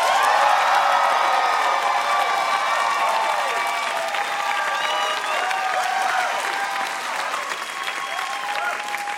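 A studio audience applauds and cheers for a contestant in a lyric-writing contest, with dense, steady clapping that continues for about nine seconds and eases slightly toward the end.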